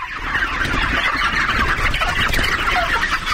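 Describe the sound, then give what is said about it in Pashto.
A large flock of about 15,000 white chickens on a poultry farm clucks and chatters, each bird weighing around a kilo. The dense, overlapping calls form a continuous, steady din throughout, with no talking. “داد محمد دا مهال په دې فارم کې د شاوخوا 15000 سپین رنګ چرګانو پالنه کوي”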